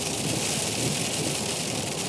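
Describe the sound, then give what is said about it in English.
Hail pounding down during a wild storm, a dense, constant hiss-like roar that stays loud and unbroken throughout, with no talk. “I just had to yell over the hail.”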